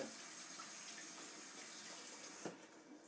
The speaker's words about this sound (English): running the water through the filter.